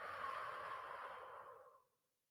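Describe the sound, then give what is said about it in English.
A pursed-lip breathing exercise gives one long, soft, airy blow of breath through puckered lips that holds steady, then fades out near the end. It is faint and heard alone. “Sorry, that probably sounds really intense with a microphone right in front of me. But that is the simple pursed lip breathing.”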